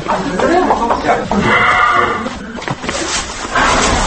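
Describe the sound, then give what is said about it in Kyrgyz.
Patron, a famous ten-year-old Central Asian ambler horse, whinnies and snorts in a string of loud, harsh calls with a brief high, tonal stretch in the middle. “Орто Азия боюнча алдына бир да жоргону чыгарбаган айтылуу патрон жоргосунун үнү.”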